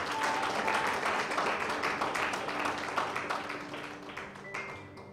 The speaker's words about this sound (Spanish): Dale un aplauso fuerte al Señor.